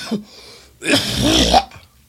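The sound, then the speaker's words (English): A person coughs harshly: a brief catch, then a raspy, drawn-out, throat-clearing burst lasting under a second before quiet returns. “The cough was in there.”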